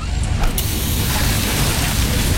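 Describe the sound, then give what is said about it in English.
A burst hydraulic hose releases a loud, steady rushing hiss that fills the whole clip, with a brief sharper gust near the start. “Oh, busted hose. This will cost me time and money, and take forever to get fixed.”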